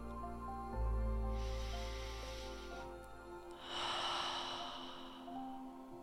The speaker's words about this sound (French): Respirez profondément.